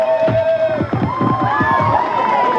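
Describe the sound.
Crowd cheering as a hot air balloon flight team in Geneva celebrates a record-setting flight and opens champagne: loud overlapping shouts and whoops from many voices, with pitch rising and falling over a constant background roar.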